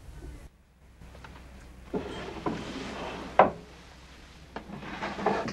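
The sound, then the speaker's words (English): Desk drawer in an office being pulled open, quiet wooden scraping and rubbing broken by a few soft bumps and one sharper knock. “He opens another drawer, and then another.”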